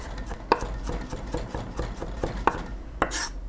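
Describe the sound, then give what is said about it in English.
A knife chops garlic on a cutting board in a quiet run of quick, soft taps, with a few sharper, louder strikes standing out among them. “You just want to chop and scrape everything back into a pile, chop again.”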